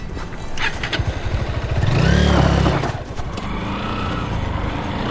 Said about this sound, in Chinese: 你摩托车声音太大了，马会惊着的。